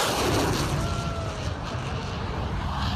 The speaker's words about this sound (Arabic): هذه الأصوات يومية. جدار صوت وطائرات حربية.